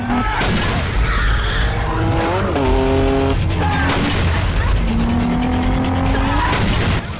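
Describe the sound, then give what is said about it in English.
Car chase between a Mitsubishi Evo and a pursuing car that rams it. Loud engines rev and climb in pitch through gear changes, with screeching tires and skids over a constant roar. “Morimoto drops a gear and accelerates towards the Evo. He rams the back of the Evo. Moving alongside the Evo, Morimoto rams into the side of it repeatedly.”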